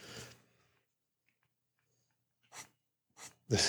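Pencil drawing on paper: a few short, dry scratchy strokes, with a long quiet pause after the first and a quicker cluster near the end.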